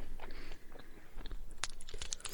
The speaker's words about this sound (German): Guten Appetit nebenbei übrigens. Dankeschön, der Knopper schmeckt.